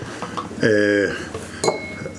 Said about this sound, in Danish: Det er jo fredag, og I kan nok høre, at jeg sætter heller kaffe op. Det er fordi, nu skal vi have en kaffepause.